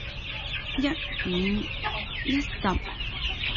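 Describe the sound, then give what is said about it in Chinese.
Chickens and chicks clucking, a few short, low clucks rising out of a busy, constant background of bird noise. “鸡仔，咪走过嚟捞乱晒”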